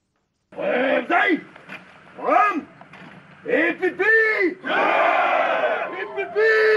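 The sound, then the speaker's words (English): Some 400 Cameroonian gendarmes arriving in Bamenda from Yaoundé sing and chant together in loud bursts of massed male voices separated by short pauses, building into a longer, fuller passage of group chanting. “This is the sound of 400 Cameroon gendarmes singing as they arrive in Bamenda from the capital Yaoundé as they vow to defend the country's territorial integrity.”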